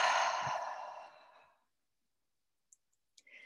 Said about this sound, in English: Taking a nice deep breath in and out.